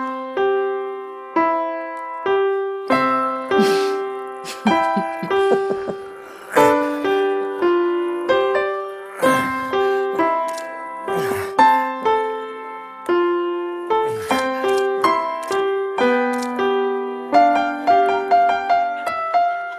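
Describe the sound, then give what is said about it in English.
A seven-year-old child plays the piano alone, striking many clear single notes and small chords one after another in a plodding, evenly spaced rhythm. Each tone rings briefly before the next is struck. “I want to remind you of what a 7-year-old child sounds like when he plays the piano.”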